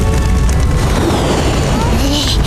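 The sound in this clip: A deep, rumbling boom of a magic gourd bursting with spiritual energy: a loud, dense roar that sustains without a break for the whole clip.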